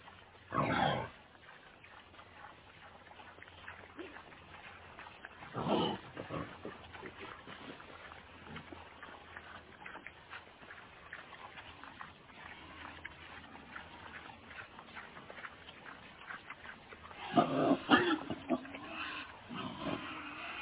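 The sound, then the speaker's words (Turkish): Grunting of a wild boar: a few loud, rough, low bursts separated by long stretches of quieter rumbling noise, with a cluster of harsher grunts near the end. “Wild boar. Erkek domuz.”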